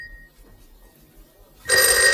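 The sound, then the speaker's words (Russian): A telephone rings: a thin tone sounds briefly at the start, then after a quiet pause a loud, continuous bell ring begins and runs to the end. “Телефон звонит. Ну, я полагаю, нам лучше ответить.”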